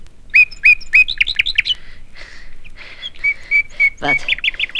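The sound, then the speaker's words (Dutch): A nightingale sings in bursts of bright, rapid chirps and whistled trills, repeated in quick rhythmic runs with brief pauses between phrases, clear and loud with no voices over it. “Wat is dat voor verrukkelijke muziek? Is dat niet de nachtegaal? Ja, de echte nachtegaal.”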